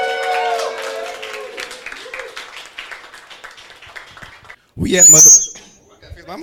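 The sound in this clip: Brief burst of clapping and a shrill whistle from a crowd welcoming rap artists at a freestyle cypher, breaking out after a voice speaks for several seconds, then quickly dying down.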